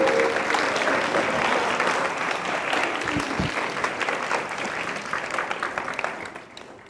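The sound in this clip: Warm church applause welcoming a pastor to the pulpit for his farewell Sunday sermon, a full, brisk patter of many hands that holds steady and then tapers off near the end.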